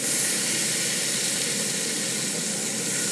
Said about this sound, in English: water ooze from the side of the steak as I press it down on the griddle pan. I see smoke rising.